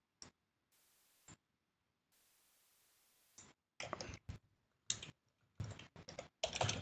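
Computer keyboard typing, faint at first and then several quick bursts of clattering keystrokes in the second half, separated by short pauses, after near silence, with no talking.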